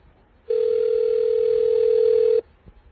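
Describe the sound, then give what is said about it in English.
A single steady telephone tone sounds alone for about two seconds, cutting in and out sharply, and is heard in place of separate dialing beeps. “we just dialed you over the air, dude, so everybody can bust out their DTMF decoders and get your number”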